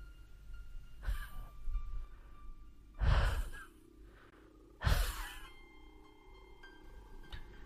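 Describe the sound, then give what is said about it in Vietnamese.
Asthmatic wheezing breaths, as in an asthma attack after smoking pipe tobacco: three heavy, rasping breaths with thin whistling tones, spaced a couple of seconds apart over a low, dark hum. “bên tai chỉ còn nghe văng vẳng tiếng thở của chú Lại, y như là mỗi một lần chú Lại hút thuốc lào xong lên cơn hen suyễn.”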